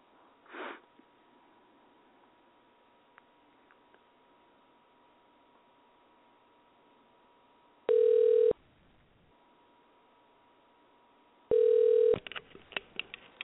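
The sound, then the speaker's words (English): Telephone call being redialed: a faint steady line tone, then two loud, steady ringing beeps a few seconds apart, followed by a few soft clicks. “Let me do this call again. Try this again. Hold tight for a minute.”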